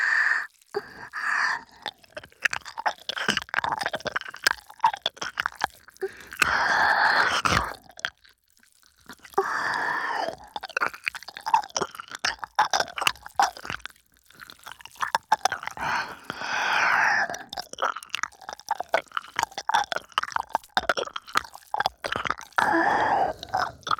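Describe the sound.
Ear licking and slurping mouth sounds: wet smacks, clicks and slurps come in many irregular bursts with brief pauses, loud and continuous, without talk.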